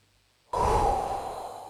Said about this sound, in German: jetzt atmen wir nochmal tief ein und nochmal ausatmen